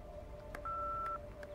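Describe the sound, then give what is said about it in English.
A telephone keypad tone as a woman makes a phone call: one steady electronic beep lasting about half a second, with fainter short blips around it, all quiet over a low background hum. “she puts down a liquor glass and weeps as she makes a phone call.”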